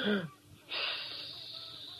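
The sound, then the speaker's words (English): A person takes an exaggerated deep breath during health exercises: a short voiced grunt, a brief pause, then a long, loud, hissing wheeze of drawn-in air that holds steady for more than a second. “Take a deep breath.”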